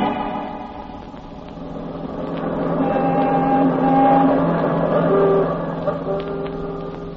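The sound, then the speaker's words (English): A car engine runs steadily during an automobile ride in a radio drama, a low, even drone that swells gently in the middle and then eases slightly. “We're all going for an automobile ride.”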